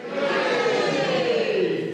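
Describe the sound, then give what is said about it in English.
An audience cheers in a sustained roar of many voices, loud and steady for the whole stretch. “Who got the bigger cheer? Not that we're competitive.”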